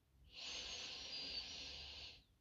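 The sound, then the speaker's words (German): A single deep inhale through the nose during a guided breathing exercise: soft airy hiss that swells in, holds steady for about two seconds, then fades out. “Atme tief in die Nase ein.”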